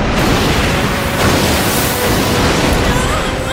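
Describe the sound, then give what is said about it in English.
A dense, continuous rumbling roar of depth charges and bombs dropped from above onto a submerged ship in a Gundam anime battle, loud and unbroken, with no separate blasts standing out. “Dropping depth charges from above, and more than likely they're using chemical bombs. After 2 minutes of bombardment, the trilobite will engage at close quarters.”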